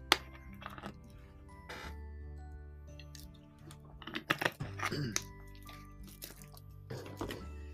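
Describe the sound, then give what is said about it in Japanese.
Someone drinking a beverage: soft gulps and wet liquid clicks, clustered in the middle, over a steady humming background. “えちょっとまた、えーと、ドリンクを飲みますね。”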